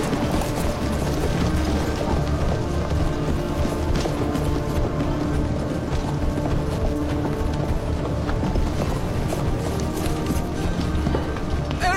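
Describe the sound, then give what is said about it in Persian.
A large gate being opened, a steady grinding, ratcheting mechanism that runs throughout amid the dense clatter of horses' hooves, loud and unbroken for the whole stretch. “دروازه رو باز کنید.”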